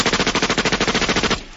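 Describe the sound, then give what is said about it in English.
A machine gun sound effect fires one loud, rapid burst of many evenly spaced shots, then cuts off abruptly into a short fading tail. “We got a little machine gun for you here.”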